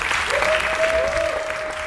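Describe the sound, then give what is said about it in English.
Audience applause for a poet coming on stage, steady dense clapping throughout, with a sustained whistle-like tone running through it. “Please give a round of applause.”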